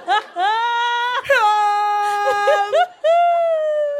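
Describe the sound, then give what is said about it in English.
A voice imitates the wailing female vocal from the Cold Case TV theme, singing three long, wavering, moan-like wails split by short breaks, loud and alone. “The only person who's made that sound is the lady from the opening theme song to fucking Cold Case. Do you remember that?”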